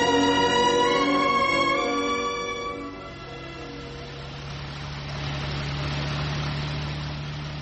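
Steady drone of a car engine and road noise as the car drives along mountain roads, a low continuous hum that dips slightly midway and then holds evenly.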